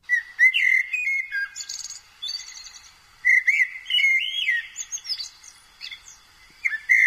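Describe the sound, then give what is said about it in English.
Common blackbird song: clear, fluty whistled phrases with warbling twists and chirpy flourishes, delivered in a few bursts separated by short pauses. The song stands alone and is fairly bright and loud. “Blackbird, OK, better known as Turdus merula. It's a blackbird, OK? And it sounds like this.”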